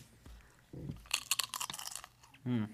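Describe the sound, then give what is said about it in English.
Crisp crunching of a nacho chip dipped in cheese being bitten and chewed: a dense run of many sharp, bright crunches in the middle, with short low vocal hums before and after. “I'm going to start off first chip. Get it in the cheese there.”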